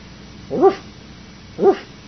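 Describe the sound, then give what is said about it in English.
Small puppy dogs bark twice, two short, sharp yaps about a second apart over a low, steady background noise. “that's dogs, little puppy dogs”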